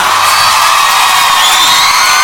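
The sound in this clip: Cheering and whoops from an audience for performer João Caeiro Capataz at a show, a loud, dense wash of shouting voices that holds steady for the whole short stretch.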